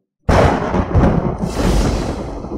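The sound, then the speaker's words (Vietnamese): Continuous thunder-like rumbling echoing out of a canyon: a loud, dense roar that starts abruptly after a moment of silence and holds steady to the end, with no voices. “một hồi tiếng vang như sấm liên tục vọng ra từ trong hẻm núi”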